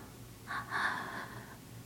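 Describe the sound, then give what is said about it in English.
A deep breath is drawn in slowly during a guided breathing exercise. The airy inhale is soft and quiet, swelling briefly and then easing off. “Inhale.”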